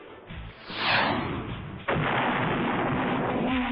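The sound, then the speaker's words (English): Rocket fired from a forearm launcher: a rising whoosh, then a sudden sharp blast that becomes a loud, sustained, roaring rush of noise. “How about I try one of these rockets from my forearm? Yeah, rockets! I'll shoot it at him!”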